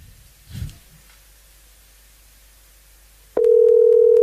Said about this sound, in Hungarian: Na hívjuk már is a naphallgatóját.